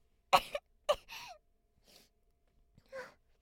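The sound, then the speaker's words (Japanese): A person has a choking coughing fit: a few sharp, harsh coughs with gasping breaths between them, then fainter sputters and a final rough cough after a short pause. “むせるむせる。”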